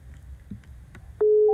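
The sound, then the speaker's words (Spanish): A telephone busy tone after a rejected call, a single loud steady electronic beep that cuts in abruptly near the end after faint low background noise. “Nos bota la llamada. Pasa algo raro.”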